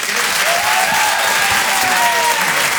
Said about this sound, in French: Je vous demande de faire un maximum de bruit.